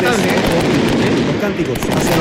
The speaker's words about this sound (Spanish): el show de fuego artificial se adelantó el 18, se adelantó el año nuevo. Ahí está, siguen escuchando, siguen cayendo bombas de estruendo acá en el Esterroa.